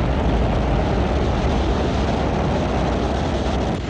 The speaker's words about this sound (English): We are now 32 seconds into flight. Falcon 9 has cleared the tower at Space Launch Complex 4 East.